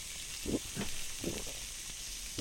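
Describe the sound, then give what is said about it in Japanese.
Meat, vegetables and green onions sizzle on a grill, giving a faint, steady hiss with a few soft crackling bursts spread through it. “お肉ももうちょっと焼く。 そうね、もうちょっと焼く。”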